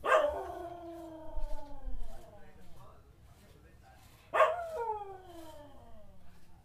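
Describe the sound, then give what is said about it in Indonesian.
A dog howls twice, each a loud, drawn-out cry that starts high and slides down in pitch. The first comes right at the start and the second arrives after a few quieter seconds. “Kenapa nih anjing?”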